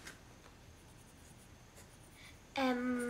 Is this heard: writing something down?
yes